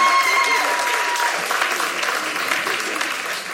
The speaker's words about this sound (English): You guys, let's give Katie a hand for coming out.